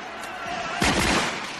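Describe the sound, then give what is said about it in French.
Gunfire in a tense standoff: a sudden loud, sharp blast of shots bursts out mid-clip over a steady background rumble, then trails off into noise. “Arrêtez de tirer. Cessez le feu.”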